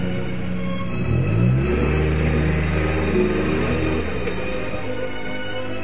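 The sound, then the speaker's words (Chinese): A car engine revving and driving away, its pitch climbing sharply and then holding steady, with a low rumble that cuts off after about four seconds. “刘源的话伤了李青的心，李青愤怒地开车走。”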